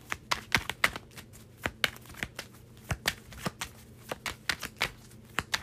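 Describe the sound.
Tarot cards are shuffled and drawn, producing many crisp papery snaps and flicks in an irregular rhythm, some in quick clusters, with no talk.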